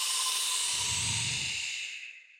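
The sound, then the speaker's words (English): One long, deep breath is released as a steady airy hiss that starts strong, then thins and fades out toward the end. No voice is present. “Begin. Inhale one. Release deeply. Inhale two. Release.”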